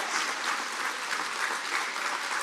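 Steady, dense applause from an audience during a Catholic religious service, a continuous even wash of many hands clapping for the whole stretch, with no voices over it.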